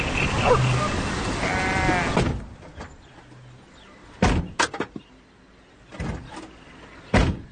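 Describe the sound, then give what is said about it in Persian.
A car door is opened and shut, heard as sharp clunks and thuds. A cluster of them falls mid-clip and a few more come near the end, after an opening stretch of voices. “در ماشین باز میکنه و میبنده.”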